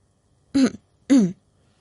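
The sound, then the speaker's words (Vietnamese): Two short, dry throat-clearing coughs from a woman, separated by a brief pause, fairly loud and alone against near silence. “Tô Tô ho khan một tiếng”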